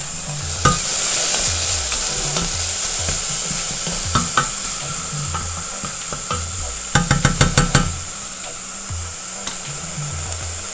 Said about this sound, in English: take our leeks, get our leeks over here, saute these now for 7 to 10 minutes until soft. Okay, we got those going.